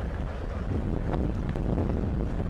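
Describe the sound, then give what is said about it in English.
Wind gusting across a baseball stadium during a game, a low, rumbling buffet that stays fairly steady throughout with no voices. “And again, you hear that wind kicking up.”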